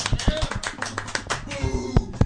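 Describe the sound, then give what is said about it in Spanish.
Applause from the audience of a Mexican TV comedy show: scattered, uneven claps ring out in a loose, irregular patter for a couple of seconds. “Un aplauso para ella.”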